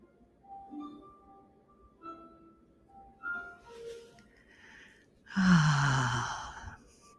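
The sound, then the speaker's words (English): A deep breath, drawn in and let out as a long, breathy sigh near the end. Soft, bell-like tones ring out one after another before it, and the exhale is clearly louder than anything else. “Deep breath.”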